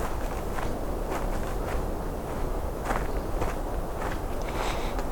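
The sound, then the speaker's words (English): Footsteps of someone walking back toward an entrance outdoors as daylight fades: a steady, evenly paced series of soft footfalls over a constant background hiss, with no talk. “Start walking back.”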